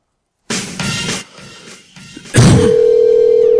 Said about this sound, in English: trying a call back now.